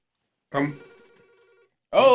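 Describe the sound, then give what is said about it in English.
A telephone ringing: one short burst of warbling ring tones that fades out, then a voice starts talking at the end. “Don't pick up the phone.”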